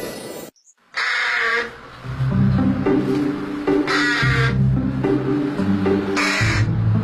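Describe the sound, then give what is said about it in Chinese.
A carrion crow, a large black bird, gives a few bursts of harsh caws. The calls stand out loudly over a steady low background. “我叫小嘴乌鸦，体长45到53厘米左右。体色为黑色，带有紫色光泽，”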